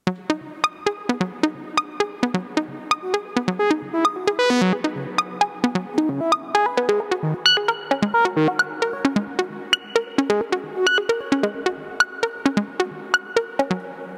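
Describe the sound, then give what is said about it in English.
A modular synthesizer sawtooth wave runs through a wavefolder into a Doepfer low-pass gate, producing many short, plucky notes in a quick rhythmic melodic pattern, each bright, buzzy attack decaying fast. “The saw goes in the second channel of the wave multiplier, because I really like the flavor of the folding on a saw wave. And then goes into the Dopfer low-pass gate and sounds like this.”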